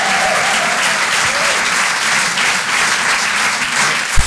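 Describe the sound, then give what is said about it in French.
Audience applause at a live comedy and song show, a dense and even wash of many hands clapping at steady loudness throughout, with a single sharp knock near the end. “Faites du bruit pour Tristan Lucas sur les chansons.”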